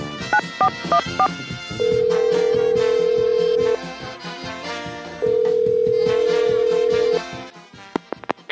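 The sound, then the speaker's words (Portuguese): A telephone number being dialed, heard as a quick run of short keypad beeps followed by two long, steady ringing tones separated by a pause. “Vamos lá, discando aqui o número...”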